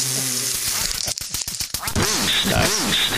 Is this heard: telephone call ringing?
no